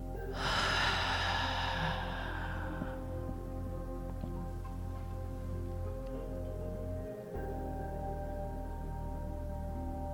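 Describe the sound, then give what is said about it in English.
A deep breath during a guided breathing exercise: a loud, airy rush of air for the first few seconds, then fading, over a steady low humming drone that continues to the end. “Last breath, biggest breath yet. Inhale, filling the lungs right up. Pause at the top. And full exhale through the mouth.”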